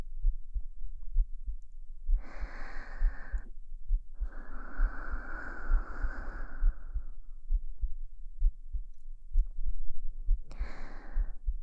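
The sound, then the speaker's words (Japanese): A person's heartbeat thumps low and steady throughout in a long run of regular soft pulses, with three longer breathy swells of noise passing over it. “私の音、聞いて。ドクンドクンって。”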